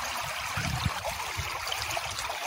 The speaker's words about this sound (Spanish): Este es el sonido del río Suspe. En la reserva hídrica Los Gigantes, hermoso río del que toman agua miles de personas.